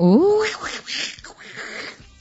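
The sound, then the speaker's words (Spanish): A sound clip of Donald Duck having an orgasm: raspy, squawking duck-like vocalizations that open with a rising pitch sweep, then continue as a steady stream of strained quacking sounds. “pongo al pato Donald que tiene el orgasmo”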